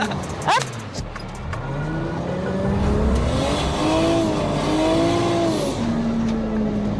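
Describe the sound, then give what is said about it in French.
A car drifts through a handbrake turn with the clutch pressed, its engine roaring steadily with a wavering pitch as the tyres squeal continuously throughout. “j'arrive vite, je prends de la vitesse au dernier moment pour qu'elle ait de l'inertie. Je mets un petit coup de volant et frein à main tout de suite en appuyant sur l'embrayage.”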